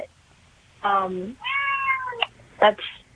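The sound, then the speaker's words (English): A cat meows a few times, drawn-out harmonic calls that waver in pitch, separated by short pauses, with a faint low background hum. “was that a cat or a little brother and sister, or a brother or sister I just heard? It was a cat.”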